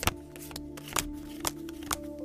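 Cards being shuffled for a fortune-telling reading: five crisp, papery snaps at a steady rhythm, with softer flicks between them, heard alone and fairly quiet.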